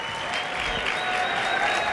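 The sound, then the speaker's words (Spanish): Steady applause from an audience for a string quartet, a dense, even clatter of many hands clapping that holds at the same level throughout. “Un aplauso para ellos. Para ellas.”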